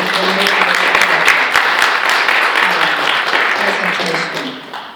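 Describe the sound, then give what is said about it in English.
Audience clapping for a panel speaker at a conference on development financing, loud, dense applause with some voices mixed in, tapering off toward the end. “why don't we give a clap for Nicole?”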